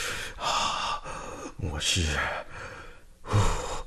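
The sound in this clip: A voice acts out a deep, calming breath, with noisy, breathy inhales and exhales and a voiced sigh-like gasp in the middle.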